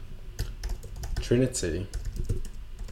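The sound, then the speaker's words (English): Slow typing on a computer keyboard: separate, sparse key clicks spread unevenly across the moment, fairly quiet, with a brief stretch of speech over them. “it's going to sound weird just because I'm typing it slowly”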